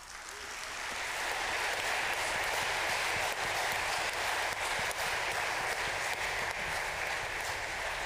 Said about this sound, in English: Can you give them one last hand?